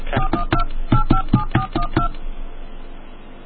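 Telephone keypad dialing tones on a phone line: a quick, uneven run of many short beeping tones, then only faint line hiss.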